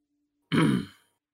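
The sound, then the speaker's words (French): A woman gives a single short cough, a harsh, rough burst lasting about half a second, alone in quiet. “Elle commence à tousser un peu.”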